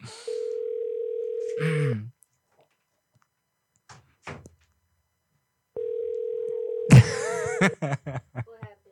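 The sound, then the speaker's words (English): A telephone tone plays on an outgoing call: two long, steady, low-pitched tones separated by a pause of several seconds with a few faint knocks between them, and people talk and laugh as the second tone ends. “It's dialing right now, so if somebody picks up.”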